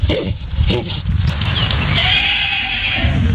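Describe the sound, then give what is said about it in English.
A miniature pony whinnying while mating: loud, harsh, rough calls over low grunting noise, ending in a sustained high, strained whinny. “This is the sound. Do you have a mini pony? I do. Okay. I do. This is a miniature pony mating.”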